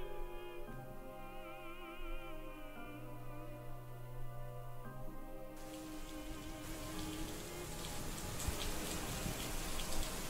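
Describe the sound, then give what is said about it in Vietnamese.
Rain pouring down in a sudden downpour, entering midway as a dense, rising hiss that swells louder toward the end, layered under soft musical tones that fill the first half. “Lá cờ đón gió cứ như vậy bay phần phật rồi lặng đi khi vừa lúc cơn mưa ập xuống.”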